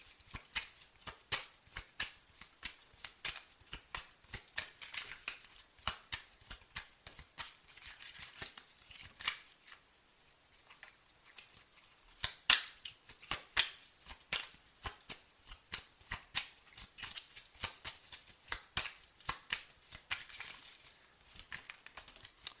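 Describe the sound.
Playing cards are shuffled and dealt for a card spread: many rapid, crisp flicks and riffles in uneven bursts, with a brief lull partway through before the snapping of cards resumes.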